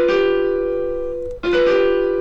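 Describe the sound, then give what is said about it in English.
Two notes a tritone apart sound together on a virtual piano, sustained and slowly fading. The same pair is struck again after about a second and a half and held to the end. “Hold on, that's a tritone.”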